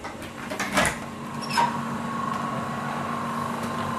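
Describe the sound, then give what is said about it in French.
Air pumps run continuously in a greenhouse-gas measurement room, drawing air from a 21-metre outdoor mast. They give a steady, faint mechanical drone with a constant tonal hum, and a couple of brief knocks come early on. “C'est une salle un peu plus bruyante. Voilà, il y a des pompes qui tournent en fait en continu voilà, pour pomper l'air depuis le mât à l'extérieur qui fait 21 mètres de haut.”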